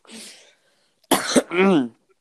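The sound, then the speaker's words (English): A single sharp, harsh cough bursts out after a soft breathy exhale, followed right away by a brief voiced vocal sound, with silence before and after. “Oh, I coughed.”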